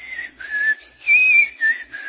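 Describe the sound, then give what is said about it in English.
A person whistles a hymn tune, a short phrase of a few clear held notes with brief gaps between them, bright and fairly loud, alone with no talking. “I'll find myself whistling a hymn.”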